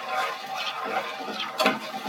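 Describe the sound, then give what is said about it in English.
Red wine simmering and starting to bubble in a pan after deglazing, a soft continuous hiss with faint, irregular popping bubbles. “Let that cook down some.”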